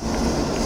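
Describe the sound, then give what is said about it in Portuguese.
Steady mechanical rumble of a diesel generator, one of five at an old diesel power plant that supplied a textile district. A continuous, even drone with a deep low end, heard alone without voices. “Este som vem de um dos 5 geradores da central diesel, que dava energia à zona têxtil.”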